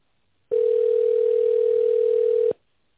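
A telephone tone sounds while a call is transferred to an operator: one unbroken, steady mid-pitched beep of about two seconds that cuts off cleanly into silence.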